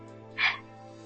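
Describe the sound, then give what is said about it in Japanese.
A single short, raspy frog croak sounds outside over a steady low hum. “今では外ではカエルがゲコゲコ鳴りながら、ね。”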